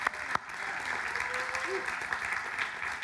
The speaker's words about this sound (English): He's great. Let's give him a hand. Come on.